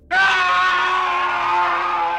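An old man gives a long, loud death scream. It starts abruptly and holds a strained, high pitch for about two seconds with no break.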